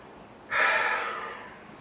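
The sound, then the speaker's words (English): A single deep, breathy exhale during a guided breathing exercise, starting abruptly and then tapering off slowly over about a second, with no talk. “Let's just take a pause before we exhale. And now, let's exhale.”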